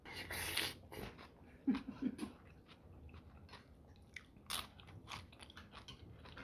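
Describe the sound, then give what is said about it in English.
Crisp biting and chewing as a broken-off piece of food is tasted at a meal of pozole with lime: a few faint crunchy bursts, with soft breathing between them. “I'm gonna go for my first taste. Break a piece off.”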